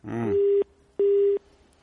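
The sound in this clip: A telephone busy tone follows a dropped call from Yemen: two steady, mid-pitched beeps, each roughly a third of a second long, separated by a short gap, with a brief voice fragment at the very start.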